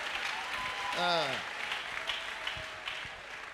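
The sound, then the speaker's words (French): Church audience applauding and cheering the Lord during a service, a steady, moderately loud wash of clapping with a voice calling out briefly near the middle. “On acclame très bien. Shangilia Bwana vizuri, shangilia Bwana.”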